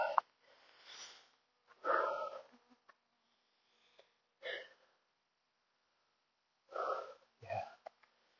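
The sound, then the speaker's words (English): Heavy breathing from a man catching his breath after climbing a hill: a few separate puffing, snorting gasps with quiet gaps between them. “Let me just get a good breath in because I just conquered that whole hill.”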